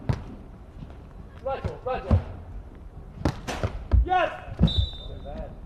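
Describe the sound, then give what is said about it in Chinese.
A ball is served in a match, with thuds and bounces sounding under steady commentary voices. “孙兴龙发球，”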